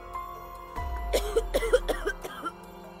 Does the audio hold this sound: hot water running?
no

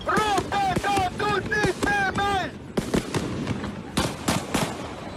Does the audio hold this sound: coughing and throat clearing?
no

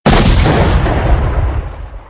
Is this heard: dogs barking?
no

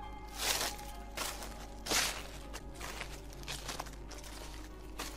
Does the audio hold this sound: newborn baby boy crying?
no

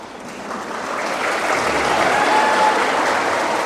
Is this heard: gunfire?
no

